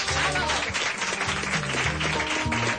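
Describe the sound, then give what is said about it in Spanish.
Applause for a studio guest on a radio show, loud and continuous, with a backing tune running underneath the clapping. “Ese aplauso para Pepu, por favor.”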